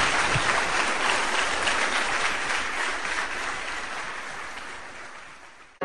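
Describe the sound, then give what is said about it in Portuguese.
Church audience applauding their God, a dense, steady roar of many hands clapping that holds strong for several seconds, then cuts off abruptly. “Vamos aplaudir o nosso Deus. Bem forte para o nosso Senhor Jesus.”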